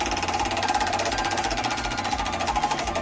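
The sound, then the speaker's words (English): A heavy game-show prize wheel spinning, its clicker rattling in a fast, even, continuous ticking at a steady level throughout. “That wheel is moving. Well, they greased it up before you came in. Yeah. Still very heavy.”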